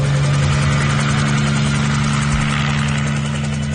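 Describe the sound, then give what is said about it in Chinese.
A helicopter's engine is started from the cockpit, producing a loud, steady rumbling drone with a constant low hum running through it. “季慧坐在驾驶舱熟练地发动了引擎”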